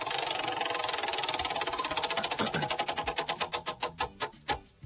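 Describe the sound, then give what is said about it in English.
A prize wheel is spun and rattles off rapid, even clicks that gradually slow into widely spaced ticks as it winds down near the end. No voices are heard. “I'm going to go ahead, pass the wheel over here. I'm going to give it a spin.”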